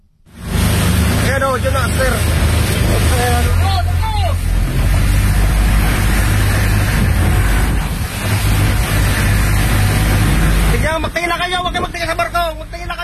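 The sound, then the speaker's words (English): A Coast Guard boat approaching a burning ferry in strong winds off the Philippines gives a loud, steady roar of engine and wind noise, with voices calling out near the start and again near the end. “Here's the sound of the Coast Guard approaching the burning ship.”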